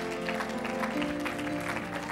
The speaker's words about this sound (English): Give God one more hand clap of praise in His presence.